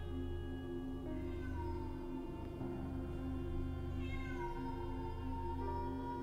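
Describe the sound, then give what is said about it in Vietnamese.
A stray cat yowls mournfully outside, faint, drawn-out wavering cries that glide up and down in pitch over a steady low hum. “từ bên ngoài vang lên tiếng kêu thảm thiết của con mèo hoang.”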